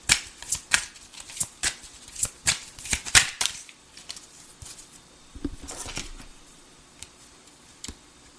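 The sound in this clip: Tarot cards are shuffled in many quick, crisp riffling snaps in a steady rhythm, then settle into softer, quieter rustling and handling of the deck, with no voices.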